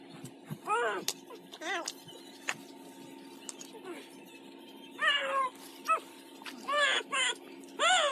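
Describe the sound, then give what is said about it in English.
Cat meowing: many short, high mews come in quick succession, some faint and some louder, over a steady low hum. “That's a cat, right?”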